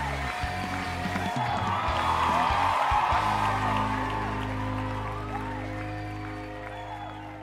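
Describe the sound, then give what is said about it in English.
Applause with whoops and cheers from an audience welcoming a show host, a dense, steady patter that swells early and then slowly fades over several seconds. “Ladies and gentlemen, put your hands together and help welcome your friend and mine, Kevin White.”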